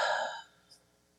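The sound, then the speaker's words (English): A soft, breathy exhale, taken as part of a group breathing together during a prayer gathering, fades out quickly and leaves near silence with a faint tick. “So if we take a breath in and then we exhale, let's do that one more time. Inhale, exhale.”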